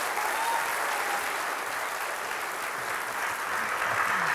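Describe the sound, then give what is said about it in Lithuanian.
Audience applause welcoming a guest at a live event: dense, steady clapping that holds an even loudness for about four seconds without a break. “Pasitikime plojimais.”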